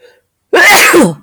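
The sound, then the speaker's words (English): A single loud, sharp human sneeze bursting out after a moment of near silence, forceful and breathy, lasting under a second before cutting off. “I'm going to sneeze”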